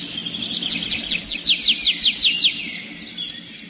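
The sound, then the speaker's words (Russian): A thrush trills in a forest, a rapid, loud series of bright, high descending notes, followed by fainter, thinner high notes near the end. “и в ту же минуту лес наполнился трелью дрозда”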